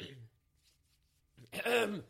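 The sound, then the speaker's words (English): A man who has been sick clears his throat with one rough, raspy burst lasting about half a second, heard alone after a short quiet pause. “he clears his throat.”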